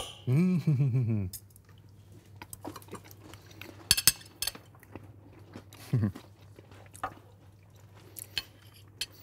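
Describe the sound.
A knife and cutlery clink and scrape on a plate while cutting very crispy pastry, with scattered sharp crunches and clicks over a quiet background.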